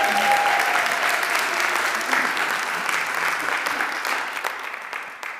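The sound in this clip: An audience at a church service applauds to welcome a pastor as the first speaker. The clapping is dense and continuous and slowly fades toward the end.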